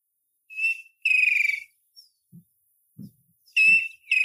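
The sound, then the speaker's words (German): A Striped Kingfisher calls in a bird guide recording, giving a few high, whistled, slightly stuttering notes separated by silent gaps. A few soft low thumps fall between the calls. “ist der Striped Kingfisher. Hört sich fast gleich an, aber man muss halt diese ganz kleinen Nuancen herausfinden.”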